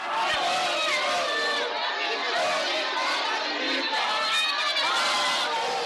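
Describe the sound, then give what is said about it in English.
Chadema party supporters cheer and sing solidarity songs outside Tanzania's High Court Division of Corruption and Economic Sabotage, a thick mass of overlapping voices that stays loud and continuous throughout. “Supporters of Mbowe's Chadema party and others who were following the case cheered and sang solidarity songs outside the High Court's Division of Corruption and Economic Sabotage.”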